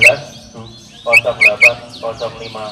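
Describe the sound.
White-rumped shama singing: bright, sharp whistled chirps in short bursts, a quick run of several notes near the middle and softer trailing notes after.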